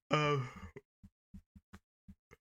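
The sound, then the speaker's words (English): A person yawns with a drawn-out, voiced, falling breath, then a string of short soft clicks and mouth sounds follows at an uneven pace. “Sorry, just yawned.”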